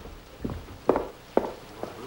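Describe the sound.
Footsteps of someone getting up and walking out: four fairly even, moderate thuds about half a second apart over a low background, with no voices.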